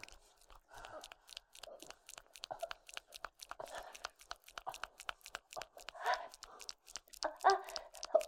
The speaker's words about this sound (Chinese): 我在吃辣条，老公，没事。哎呀，就是辣条太辣了。